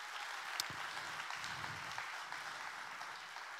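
Church audience clapping to welcome online viewers, a soft, even patter of applause that carries steadily without a clear start or end.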